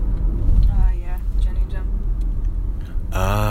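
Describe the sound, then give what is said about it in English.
Car driving down Shades of Death Road, a steady low engine and tyre rumble under people talking throughout. “we're driving our way back down Shades of Death Road, foolishly.”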